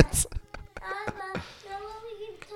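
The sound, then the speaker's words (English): A child talks in the background, a high-pitched voice mixed with sharp clattering knocks and handling noises. “All right, who's this kid talking in the background?”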